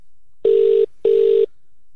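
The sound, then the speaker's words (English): Telephone ringing tone while placing an automated call: two steady, low, slightly buzzy tone bursts of equal length, separated by a brief gap, then silence. “So do you want to take the honours and do this robo call? Yeah, all right. Okay, let's call Barnaby Joyce now.”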